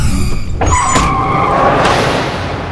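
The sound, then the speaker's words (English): A car brakes hard and skids to a halt, its tires letting out a high, sustained screech over a loud roar of road noise. “Dominic slams on the brakes.”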